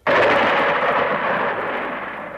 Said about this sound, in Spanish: una noche de tormenta con truenos. ¡Truenos!